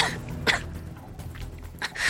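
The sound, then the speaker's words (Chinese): A person gives a light cough: a few short, soft bursts of breathy noise, one near the start and two close together at the end, over a quiet background. “徐增轻咳了一声，”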